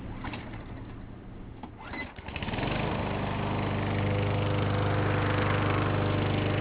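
A landscaping crew's lawn mower keeps residential lawns trimmed; its engine kicks in after a couple of seconds of quieter background, then drones in a steady, buzzing harmonic hum that holds constant to the end.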